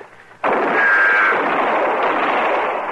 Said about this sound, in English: I'll shoot.